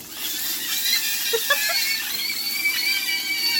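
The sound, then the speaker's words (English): Sausages frying give a steady, bright sizzling hiss laced with thin, high squealing and whining tones, plus a few brief chirping squeaks partway through. “So check this out. Right, so check this out. This is the sound of the sausages frying. Here it comes.”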